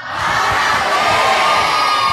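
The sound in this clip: A church audience cheers to congratulate a sister, with loud whoops and children's shouts. The cheering swells in quickly, then holds as a sustained roar of many voices.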